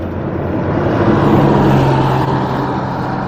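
A bus drives past a night-time bus station without stopping, its engine a steady low drone that swells slightly midway and then eases, with no voices.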